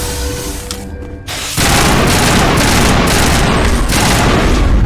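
Loud, dense shotgun fire from three shotguns in a video game battle against Rachni, bursting in after a quieter opening and continuing as a sustained, heavy barrage.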